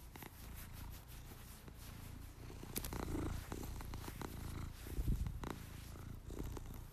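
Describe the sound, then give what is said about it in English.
Loud, continuous purring of a male cat, a low throbbing rumble that runs without a break, with faint rustles and no talking. “He's a loud purrer. Okay, here, check it out.”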